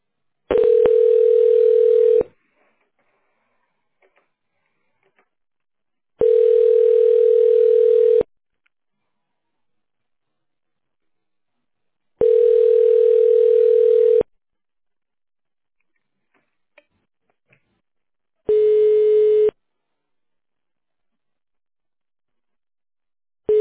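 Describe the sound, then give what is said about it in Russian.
Telephone tone heard while a call is being transferred to an extension: long, steady, mid-pitched electronic tones repeating with a few seconds of silence between them, with no voices. “Перевожу вас на добавочный номер. Оставайтесь на линии.”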